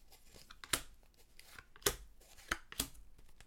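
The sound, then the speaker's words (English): Tarot cards are drawn from a deck: four crisp, papery snaps and slides stand out against a faint, continuous rustle, with uneven gaps between them and no talk. “I will draw my first card. Let's start drawing cards. So let's pull some cards.”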